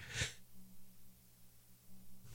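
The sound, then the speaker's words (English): A single sneeze bursts out sharply at the very start, brief and breathy, then fades into a quiet, steady low hum with no voices. “Sorry, I had to sneeze. I didn't want to do that on the air.”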